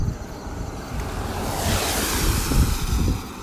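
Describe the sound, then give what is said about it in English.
Rushing water on the road, a broad hissing wash that swells through the middle and stays strong, with low rumbling underneath. “you can hear the water on the road, can't you?”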